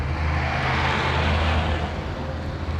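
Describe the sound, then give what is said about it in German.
Engines of Land Rover vehicles pulling up at a roadside near a railway embankment and signal bridge, heard as a steady low rumble and broad hum with no clear stop. “Die drei Fahrzeuge erreichen den Bahndamm. Die beiden Land Rover halten am Straßenrand in der Nähe der Signalbrücke.”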